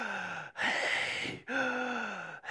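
Heavy breathing: several deep, rhythmic, partly voiced breaths, each about a second long and separated by short pauses, fairly loud and heard alone.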